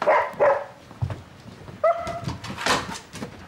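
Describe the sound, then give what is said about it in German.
A dog barks in a few sharp, uneven bursts, with a higher whining yelp between them. The barks are loud and clear, with no talking over them. “Entschuldigen Sie bitte, das bin nicht ich, das ist der Hund.”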